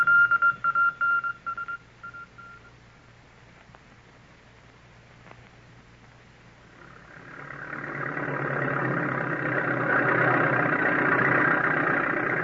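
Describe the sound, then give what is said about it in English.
A bulldozer engine at work uprooting trees swells up from near silence into a steady, broad droning roar, preceded by a run of short electronic tone beeps. “Let me watch that bulldozer at work. See how it takes up the trees.”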